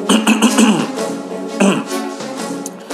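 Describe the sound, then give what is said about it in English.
Awkward throat clearing: a few loud, gravelly voiced rasps. The first is long and rattling, and shorter harrumphs follow it. “the awkward throat clear.”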